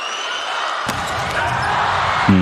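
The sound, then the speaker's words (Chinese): Volleyball serve by Yuji Nishida ending in a service error: a single sharp hit cuts through steady crowd noise, which keeps building afterward. “暂停回到场上，西田有志发球失误，双方还是一个平手， 但明显看得出他这个发球失误也是特别敢发的”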